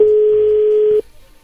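Telephone dial tone: one steady, unbroken mid-pitched tone holds at an even level for about a second, then cuts off abruptly. No separate dialing tones follow.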